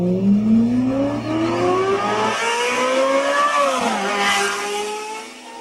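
A Formula 1 race car speeding past, its loud engine whine climbing steadily in pitch, then dropping sharply near the end and settling lower, with no talk.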